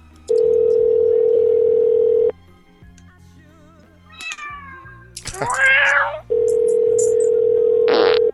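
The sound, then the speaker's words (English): Telephone line tones: a steady, loud, flat dial tone runs for about two seconds, then gives way to warbling, rising and falling meow-like tonal cries and bursts before the same steady tone returns for another two seconds. “Let's call Charles back and say she's not at work.”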